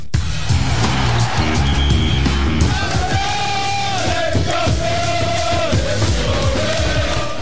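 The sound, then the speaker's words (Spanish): Paris Saint-Germain players celebrating their 11th French league title, chanting and shouting in Spanish: a loud, dense, sustained roar of many voices with continuous yelling and sung cheers. “Así celebraban y en español los jugadores del Paris Saint-Germain el 11º título de la Liga del Fútbol Francés.”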